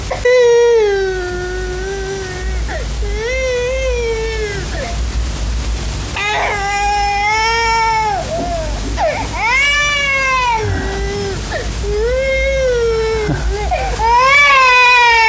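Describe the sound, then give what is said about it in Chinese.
An infant cries continuously in loud, wailing sobs, with the pitch of each cry rising and falling and only brief catches of breath between them. “孩子见了生人恐怕更要哭，我看就免了吧。”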